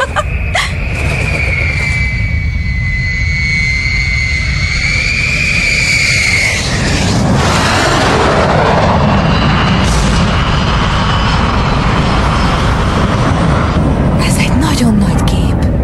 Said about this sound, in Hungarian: amerikai bombázó. Egy bombázó? Igen, harci gép. Talán a csatatérre tart?